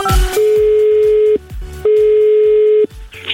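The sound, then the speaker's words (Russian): Ringback tone of an outgoing telephone call being dialed: two long, steady single-pitch tones of about a second each, separated by a short gap, over a faint rhythmic background. “Звоним Андрею Сычеву.”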